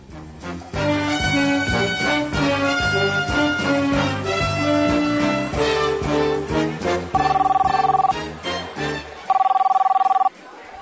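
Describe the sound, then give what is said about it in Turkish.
Telephone ringing in a hospital: two steady, high electronic ring bursts come after a stretch of music, with a short gap between the rings. “Oh, telefonlar hiç susmak bilmiyor.”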